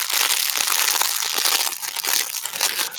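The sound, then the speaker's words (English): Crinkly paper inside a small panda toy rustles and crackles continuously as it is squeezed and handled. The bright, crisp crinkling stays dense and uneven throughout, with no talking. “I have this little panda thing, and it's got like some crinkly paper in here.”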